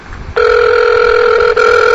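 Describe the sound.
An electronic telephone ring sounds as a loud, steady two-tone buzz that starts abruptly, breaks off for an instant, then continues.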